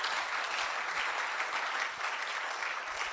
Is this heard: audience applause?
yes